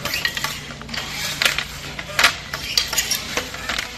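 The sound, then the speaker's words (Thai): Wooden knocks and clatter from a traditional Thai handloom weaving cloth in a village weaving group in Sai Buri, Pattani, with sharp irregular clicks over a low steady hum. “เสียงกระทบของกี่ทอผ้าดังเป็นจังหวะ”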